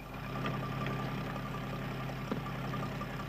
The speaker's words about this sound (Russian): Работают тракторы.